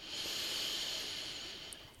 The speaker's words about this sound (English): close your eyes, take a deep breath in,